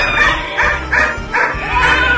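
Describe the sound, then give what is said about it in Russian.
A dog barking in a yard gives a few quick, high yaps over a loud, steady noisy background. “а в моем дворе лаяла собака.”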